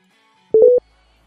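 A telephone number is dialled, giving four quick electronic beeps in a rapid, even run. The short, mid-pitched tones are heard alone, with silence before and after.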